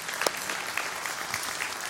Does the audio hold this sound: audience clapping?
yes